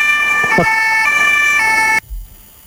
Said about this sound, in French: Et les sirènes, le bruit des sirènes, elle adore ça.